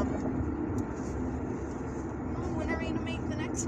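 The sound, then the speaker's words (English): Steady engine and road rumble inside a moving car, a dense, even low roar that holds at the same level throughout with no clear separate events. “Maybe next Wednesday when we go on this drive again. Maybe. We'll see how the recording comes out. Because we're in the car. I don't know how good the sound is.”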